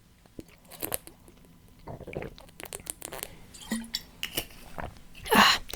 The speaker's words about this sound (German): Ich muss mal erstmal einen Schluck trinken.